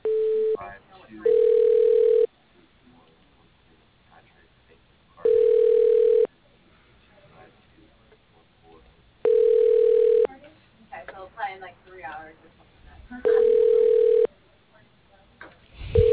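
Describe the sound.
Telephone ringing tone while a call is being transferred: four short, steady mid-pitched rings at even intervals, with a voice talking in the gaps between them.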